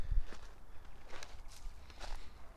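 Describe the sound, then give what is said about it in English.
Footsteps walking through a dry, sandy, rocky creek bed with the water running low: a few soft, gritty crunches spaced irregularly, fairly faint, with no voices. “Alright, now, I'm pretty much walking in the creek bed.”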